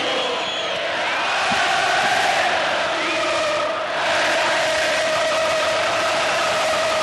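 A stadium crowd roars at La Bombonera, Boca Juniors' ground, in 1995 as Maradona returns to the pitch; a loud, dense, unbroken roar with whoops and shouted cries swelling within it throughout.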